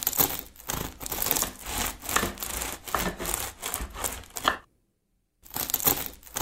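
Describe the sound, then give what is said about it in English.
A knife saws through a crusty baguette, its crackly, scratchy strokes repeating in a steady back-and-forth rhythm, then a brief silence before the slicing resumes. “Cutting a baguette. All right, it's slicing a crusty loaf of bread.”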